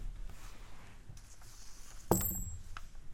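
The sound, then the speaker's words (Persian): Coins thrown onto a floor by a seated judge: faint clinks, with one clearer impact that leaves a brief, high metallic ring, heard alone over quiet background hiss. “قاضی از همان جا که نشسته بود سکه ها را روی زمین انداخت”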